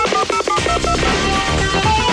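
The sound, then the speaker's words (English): A touch-tone telephone being dialed to call a toll-free Army recruiting number, a quick run of short beeping tones at the start followed by a fuller blend of sound. “1-800-USA-ARMY? Where's that phone?”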